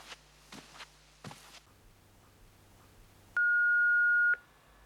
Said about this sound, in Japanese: あ、留守電。